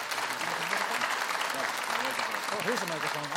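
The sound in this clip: Congregation applause at a morning church gathering welcoming a guest to the stage, a fairly soft, even patter of clapping with a voice speaking over it throughout.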